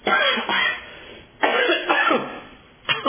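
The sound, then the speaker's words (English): Coughing and throat clearing: three harsh, rough bursts, each fading before the next, loud and alone with no speech. “I got that burr in my throat again. It's terrible.”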